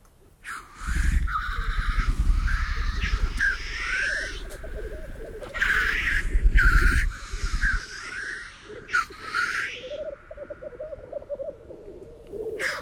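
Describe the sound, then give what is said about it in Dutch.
Black grouse displaying at a lek in Sweden: a dense chorus of low bubbling, cooing rolls broken by several loud wheezing hisses. The low bubbling thins out in the second half while the hisses continue. “Het is een baltsplek. Een bolderplaats van korhoenders.”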